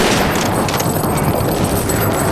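Video game gunfire as Marines clear a crash site: a loud, dense volley of many rapid shots and booms that runs without a break from start to finish.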